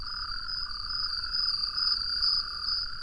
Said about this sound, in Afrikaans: Hy sluit by sy kriekvriende aan en hulle stem almal saam met hom.